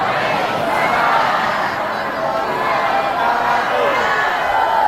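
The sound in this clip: An audience replies in unison to the Islamic greeting, a loud, steady mass of voices that swells slightly and holds for several seconds.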